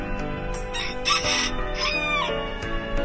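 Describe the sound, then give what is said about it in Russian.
A rooster crows from a fence, giving a high, wavering call over a low steady hum. No voices are heard. “петух, которого она всегда кормила, увидел ее, обрадовался, взлетел на забор и закричал: «Кукареку, кукареки!”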